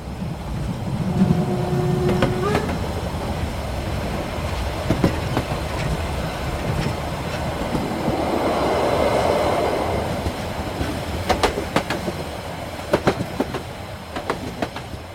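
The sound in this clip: A freight train rolls along the rails in a loud, steady rumble, with repeated clickety-clack of wheels over the track and brief high metallic squeals from the wheels, and no voices.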